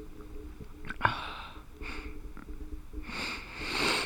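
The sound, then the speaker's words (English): A sharp, breathy inhale is drawn right into a microphone. Several noisy breath sounds occur, the longest and fullest near the end, with a faint click earlier. “Bro, you just inhaled in the mic.”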